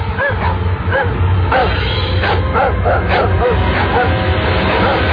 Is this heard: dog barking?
yes